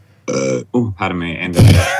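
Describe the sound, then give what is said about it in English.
A burp after drinking wine. Short voiced grunts lead into a low, rough, guttural belch near the end, loud and close. “Sorry, I just had that wine. Oh, it's a very savory umami burp. Very umami.”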